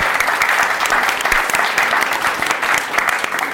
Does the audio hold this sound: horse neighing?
no